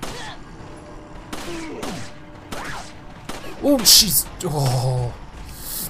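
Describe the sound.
Gunfire in a video game as the player fights off an advancing crowd of attackers throwing axes and a scythe: several sharp, separate shots a second or so apart, with game vocal sounds in between and a louder, denser burst toward the end.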